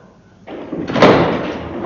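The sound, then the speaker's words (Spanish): A heavy crypt door creaks open on iron hinges, a loud rough grinding that builds in two steps and swells again at the end, with no voices. “El tener que abrir la puerta de la cripta, chirriando espantosamente sus goznes de hierro y tan pesada.”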